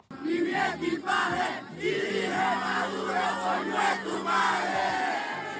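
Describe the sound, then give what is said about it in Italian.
A crowd of Venezuelans celebrates at a demonstration in Madrid, cheering, shouting and chanting loudly. The noise is continuous and dense, with many overlapping voices holding steady throughout. “Ieri e oggi a Madrid ci sono state delle manifestazioni spontanee di venezuelani pro e contro la cattura di Maduro. C'è andata la nostra collaboratrice dalla Spagna, Giulia Danieli. Iniziamo da chi festeggia.”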